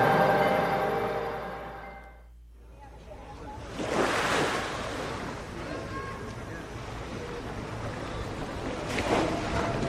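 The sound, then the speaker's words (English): Shallow water washing against a pier beside an old paddle steamboat on a brisk Sunday afternoon in San Francisco: after a short tonal opening, a steady rushing surf with wind noise swells and eases. “Just past the edge of the dock, an old paddle steamboat called the Eureka bobs in the shallow water.”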